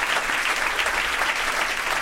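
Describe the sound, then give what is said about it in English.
Applause from a jazz club audience at the Blue Note after a live solo piano ballad: even, dense clapping sustained throughout at a moderate level, with no voices standing out. “Yeah, that was Keith Jarrett. He deserves all those applause. When I Fall in Love.”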